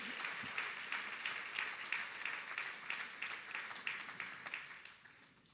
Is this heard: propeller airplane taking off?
no